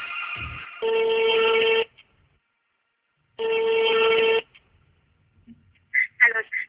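An outgoing telephone call rings through the line with two long, even ringback tones separated by a pause. A few brief, quieter sounds follow at the end.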